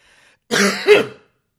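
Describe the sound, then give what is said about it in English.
A single cough comes from someone whose voice is strained after screaming without warming up. It is one short, rough, throaty burst with a brief second push, loud and alone. “I'm going to leave that cough in.”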